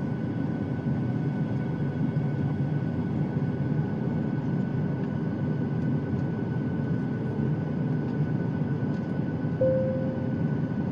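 Airliner cabin drone during the landing approach: a steady, unbroken low engine rumble and roar that holds an even level throughout, with no voices.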